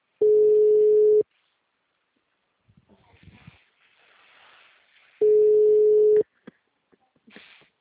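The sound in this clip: A telephone busy signal while calling someone: two long, steady, mid-pitched beeps, each about a second long and separated by several seconds of quiet, faint rustling.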